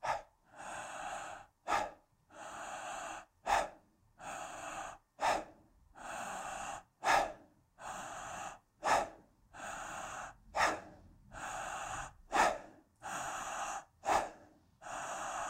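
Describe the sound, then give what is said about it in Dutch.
Rhythmic breathing exercise: many quick, relaxed breaths in a steady, even cycle, sharp brief intakes alternating with longer, soft exhalations into a relaxed belly, with no talking. “En ontspannen en kort uit, alsof je het elastiek los laat schieten. En daarmee je middenrif zich volledig ontspant. Dus hier ook ga je steeds meer ademen in een zachte buik.”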